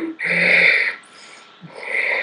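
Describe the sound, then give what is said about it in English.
A voice imitating labored, heavy breathing: two loud, raspy, harsh breaths, the first long and forceful, the second following after a brief pause. “listen to the way people breathe. Somebody's breathing like,”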